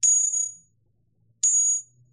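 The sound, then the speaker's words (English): Two bright, high-pitched pings from a translucent natural jade bangle struck with a hard material, each ringing clearly for about half a second before fading, with silence between the strikes. “That's the sound of a natural bangle with some translucency.”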